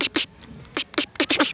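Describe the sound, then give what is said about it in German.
A mouth imitates a snare drum in beatbox style: a quick series of sharp, noisy, cracking snaps, several clustered closely near the end, heard alone. “und dann gibt es noch einmal die Snare.”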